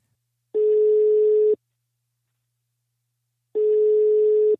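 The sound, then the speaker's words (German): Ringback tone of an outgoing telephone call: two identical steady, mid-pitched electronic tones, each about a second long, separated by a silent gap of roughly two seconds, clean with no other sound. “Deshalb habe ich äh, Naomi Walkland, äh, die Marketing-Chefin äh, von Bumble, angerufen.”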